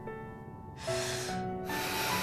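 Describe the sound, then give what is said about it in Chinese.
A deep breath taken late at night: two long, breathy hissing rushes of air follow each other closely, each holding steady for under a second over a faint steady background. “深呼吸。”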